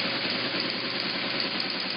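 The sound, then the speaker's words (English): A teletype machine running, giving a loud, continuous mechanical clatter with a rapid, even rhythm and no voices. “And this is what those teletype machines sounded like.”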